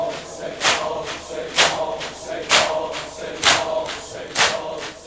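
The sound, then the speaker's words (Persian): Mourners beat their chests for Imam Hussein: five loud, rhythmic slaps land about once a second over a steady crowd background. “با هدف این که برای سید الشهدا داری خودتو میزنی سینه بزن، لذت دنیا و آخرتو میبری.”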